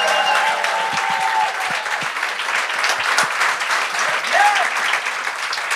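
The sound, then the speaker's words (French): An audience applauds and cheers loudly and steadily as the evening's first judge is welcomed at a live show, a continuous wash of clapping and crowd noise from start to finish. “Faites un maximum de bruit pour Geneviève Gagnon!”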